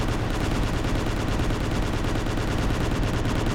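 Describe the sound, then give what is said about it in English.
Rapid, nonstop firing of a mega shooter weapon in a video game, a dense unbroken stream of shots at steady, high loudness for the whole stretch. “I'm just shooting right with my mega shooter.”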